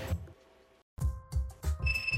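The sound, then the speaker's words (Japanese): A telephone ringing in short repeated electronic bursts with steady high tones, fairly loud, with no talk over it. “電話だ。”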